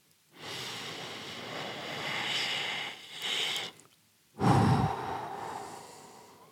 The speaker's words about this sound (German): Ich mache einmal den tiefen Einatmen